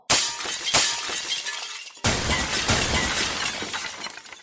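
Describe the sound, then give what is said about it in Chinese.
Antiques fall to a hall floor and shatter in two loud crashes, each a bright burst of breaking glassy and ceramic pieces followed by tinkling debris. “入到大厅一看，发现摆设的古董全部都跌晒落地碎晒了。”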